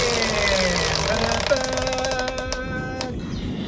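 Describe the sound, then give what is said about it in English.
A game-show prize wheel given a big spin, clattering with a fast run of sharp ticks over a steady, humming tonal background. “We're going to spin the wheel to choose the category.”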